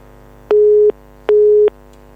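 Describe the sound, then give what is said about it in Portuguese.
A telephone busy tone sounds after a phone-in caller's line drops, two identical mid-pitched beeps separated by a short gap, steady and loud over a faint hum. “Perdemos o ouvinte Amarildo, mas podemos recuperá-lo.”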